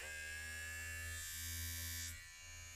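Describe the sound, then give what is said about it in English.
An electric body hair trimmer buzzing, a steady low motor drone with a bright harmonic whine, holding constant and shifting slightly in tone near the end, no voices. “Some trimming ASMR. Look at this. Look at the sound of this thing.”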